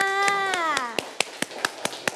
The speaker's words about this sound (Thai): เด็กๆทั้งปลายทางและต้นทางปรบมือให้เพื่อนๆค่ะ